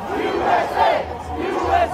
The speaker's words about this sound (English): there was kind of a medium crowd there, and they were doing their usual chants, like Stop the Steal and USA.